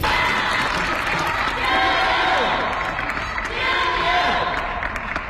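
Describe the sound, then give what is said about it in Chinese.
Crowd cheering at the opening of a women's table tennis super league match in a Beijing gymnasium: a dense, loud, continuous roar of many voices, with rhythmic shouted chants swelling twice. “听到现场熟悉的加油声”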